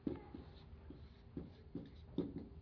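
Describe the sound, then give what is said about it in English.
Chalk or marker writing on a board: faint, scratchy strokes in irregular bursts, soft and dry. “So I'll write these on the board.”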